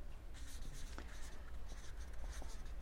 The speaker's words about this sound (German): Und wie ihr sehen könnt, ich schreibe immer dazu von anderen.